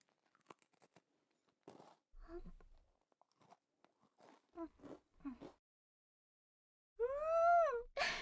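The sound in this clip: Crisp crunching of a butter-and-milk cookie being bitten and chewed: a series of short, dry crunches in uneven bursts, with quiet pauses between them.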